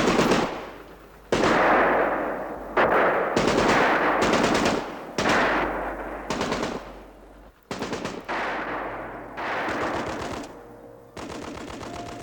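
Rifle and machine-gun fire rattles in many loud, rapid bursts, each broken off by short pauses. The shots are sharp and dense, with no voices between them.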